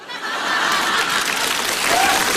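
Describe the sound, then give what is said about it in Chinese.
Audience applause on a radio comedy show swells quickly and holds as a steady, full wash of clapping to the end. “我看谁鼓掌的？”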